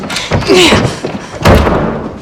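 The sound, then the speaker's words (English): A door is pushed shut and then forced open: two heavy, loud thuds about a second apart, each with a short rattling tail. “She goes to shut her door, but he forces it open.”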